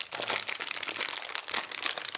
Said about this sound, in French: Donc, pour arriver à ouvrir... Voilà, toute la difficulté, finalement, de la recette, c'est d'ouvrir le paquet d'abricots moelleux.